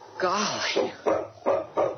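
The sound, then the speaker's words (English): A magnificent dog standing outside a trading post door gives a drawn-out, wavering whine followed by three short, sharp barks spaced close together. “Standing just outside the trading post door was the most magnificent dog Peter had ever seen.”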